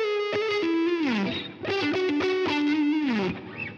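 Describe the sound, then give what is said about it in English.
A guitar solo played through octave and fuzz effects, with thick distorted sustained notes that bend and slide downward in pitch, loud and alone with no voices. “He's using like mixolydians and things in there. He's got the octave on, he's got the fuzz. And it made it sound kind of otherworldly”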